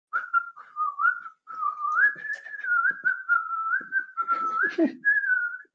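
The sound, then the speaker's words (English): A person whistles a simple tune alone, a clear high melody of many connected notes gliding gently up and down in short phrases, with brief pauses between them. “I mean, I could whistle a little bit. I could do some whistling.”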